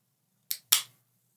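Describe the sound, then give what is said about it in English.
A drink can pops open with a sharp crack, followed a moment later by a brief, bright fizzing hiss that fades quickly. The rest is quiet. “Let's crack these guys open. Let's do some ASMR.”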